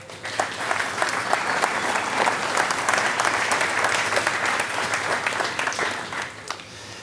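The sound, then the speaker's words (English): An audience applauds a speaker's welcome at Hope Des Moines: dense, steady clapping that holds evenly for about seven seconds and then thins out near the end. “So if you would, give a warm Hope Des Moines welcome to Steph Schmaltz.”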